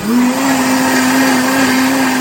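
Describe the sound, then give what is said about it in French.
An electric blender whirs as it mixes chouchou juice with sugar for a homemade syrup, a loud, steady motor hum holding one pitch for the whole couple of seconds. “Tant de sucre pour tant de jus. Ensuite, on va venir mixer.”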